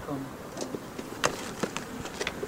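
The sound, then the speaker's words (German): Bees buzz around the small entrance hole of a busy bee box, a steady insect drone broken by brief louder passes as individual bees fly close. “Und jetzt sind wir auch schon unmittelbar an der Bienenkiste. Da ist ein kleines Flugloch und da herrscht aber wirklich Hochbetrieb.”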